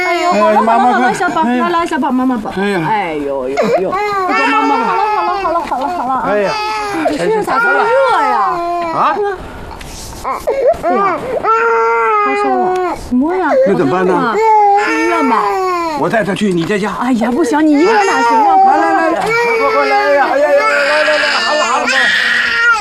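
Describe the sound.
A feverish baby cries loudly and without a break. The wails swing up and down in pitch in long, strained bursts, with brief catches of breath between them.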